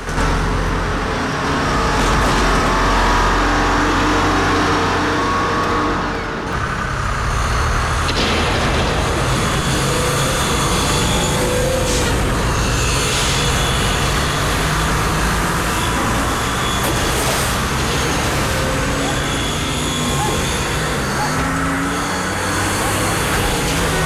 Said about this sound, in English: Prisoners loaded on two trucks are driven into a heavily guarded coal mine.